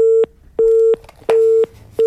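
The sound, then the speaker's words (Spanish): Telephone busy tone after a call drops: a steady, clean mid-pitched beep pulsing on and off in an even rhythm, each tone lasting about a third of a second with equal gaps between. “Y se nos corta ese teléfono.”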